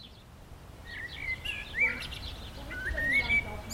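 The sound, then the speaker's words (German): Birds sing at a playground in a residential area of Schwerin with streets of single- and multi-family houses. Short chirps and whistled trills come in scattered bursts, fairly soft and clear. “Ein Spielplatz in einem Wohngebiet in Schwerin. Ein- und Mehrfamilienhäuser säumen die Straßen. Auf dem Spielplatz hört man die Vögel und kaum Kinder.”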